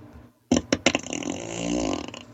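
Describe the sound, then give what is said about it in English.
A comedic fart sound effect: three quick, loud sputtering blasts in a row, then a longer rasping buzz that fades out, heard alone. “These farts aren't good enough. I gotta get with my producer. That's better.”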